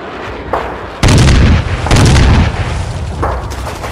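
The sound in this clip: Homemade bombs exploding amid gunfire: two loud, heavy booms about a second apart, each with a long rumbling tail, framed by a few smaller sharp bursts before and after.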